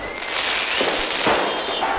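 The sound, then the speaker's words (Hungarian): Fireworks set off in Beirut to celebrate the end of fighting, a steady loud wash of crackling bursts with a few sharper pops standing out. “Tűzijátékkal ünnepelték a harcok végét Beirutban.”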